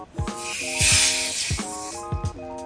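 Foam sprays from a shaken aerosol can in a bright hissing burst, heard among other short tonal sounds and sharp clicks.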